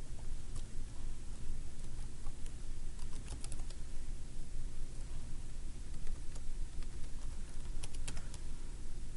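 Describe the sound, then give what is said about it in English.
Someone types a login and password on a computer keyboard, a long run of quick, light clicks in an uneven patter, faint over a steady low hum. “So let me type in my login and password.”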